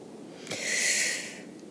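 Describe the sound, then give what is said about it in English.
A single deep inhalation during a stretching exercise class makes a soft, airy hiss that swells and then fades over about a second, with no other sound around it. “Breathe in.”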